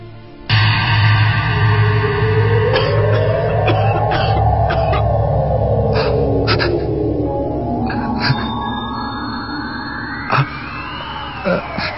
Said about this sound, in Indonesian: aku mendengar suara batuk seseorang.